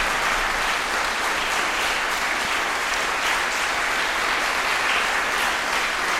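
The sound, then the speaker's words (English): Applause follows a piano performance of Mendelssohn's Rondo Capriccioso in E. Dense, even clapping from the audience continues at a steady, fairly loud level with no break. “Mendelssohn's mighty Rondo Capriccioso in the key of E was played by Eliane Lessard, and the audience were registering their approval.”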